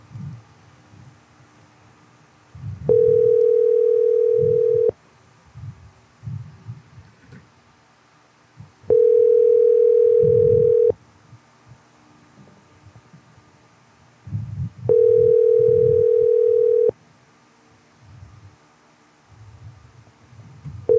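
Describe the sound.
A telephone call rings out as three long, steady, mid-pitched tones, evenly spaced with pauses between them, while low rustling and murmur fill the gaps.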